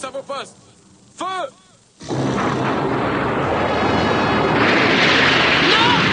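Soldiers fire guns and artillery: a few short, sharp bursts open the scene, then a loud, dense, continuous barrage roars on without a break.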